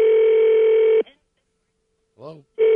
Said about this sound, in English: Give me a moment to call the official Washington, D.C. snow weather line. All right. Slow dialer.